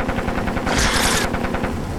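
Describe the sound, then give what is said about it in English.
Machine gun fire rattles in a rapid stream of many sharp shots, building to a dense, loud burst of noise at the midpoint before the staccato rattle resumes. “Suddenly, the dinosaur is mowed down by machine gun fire.”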